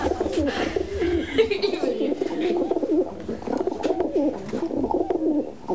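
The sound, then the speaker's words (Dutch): Pigeons cooing in a steady stream of low, throaty, warbling coos that overlap and continue throughout at moderate loudness. “Duiven”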